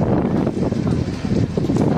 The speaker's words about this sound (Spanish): Esto que escuchamos, el viento